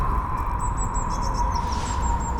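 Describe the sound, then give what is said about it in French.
Birds chirp in a park with passing cars, their short, high calls repeating faintly over a continuous low traffic rumble and a steady hum. “je me suis posé dans un parc avec des oiseaux et des voitures, mais surtout des oiseaux, et puis des enfants.”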